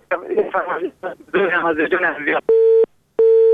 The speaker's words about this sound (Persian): متاسفانه تماس برادر ما قطع شد و ما نفهمیدیم که کدام آهنگ فرمایش دادن.